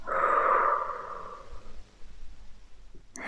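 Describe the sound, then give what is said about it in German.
A slow exhale through the mouth, a soft airy breath that is loudest at the start and fades away over about a second and a half, followed by near silence. “stell dir vor, wie du beim langsamen Ausatmen durch deinen Mund alle negativen Gefühle hinter dieser Erwartung Richtung herausbläst”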